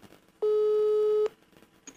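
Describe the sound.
A telephone ringing tone sounds during an outgoing call while the caller waits for an answer: one steady, mid-pitched tone lasting under a second, fairly loud and alone, set between quiet stretches of faint background noise.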